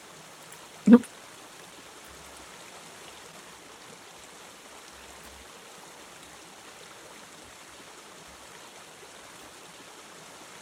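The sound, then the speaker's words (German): Flowing water makes a faint, steady rushing hiss that continues unchanged throughout, with one brief sharp click near the start. “Sehr entspannt mit den Wassergeräuschen im Hintergrund.”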